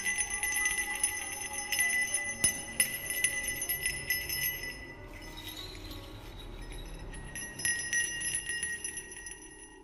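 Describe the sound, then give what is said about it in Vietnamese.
A small bell is shaken steadily, jingling as it is used against low-level demons in a fight. Bright, ringing metallic tones carry on throughout, thinning briefly near the middle and then returning, with no talk. “Âm thanh của cái chuông được thằng Toàn từ từ lắc lên leng ca leng keng.”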